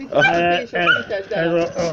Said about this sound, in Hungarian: Kutya! Kutya!